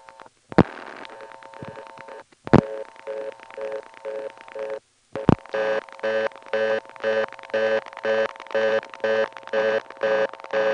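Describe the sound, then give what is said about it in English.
Telephone dialing on an exchange callback circuit produces steady line tones broken by three loud switching clicks, each shifting to a new tone pattern. It ends in a rapid, repeating on-off buzz. “But as I dial each digit, you'll actually hear three quick changes. And then I'll hang up.”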